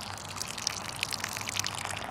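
Water pours from a blue watering can holding icy water onto a newly planted Chinese plum tree, making a soft, steady trickle flecked with small splashy droplets.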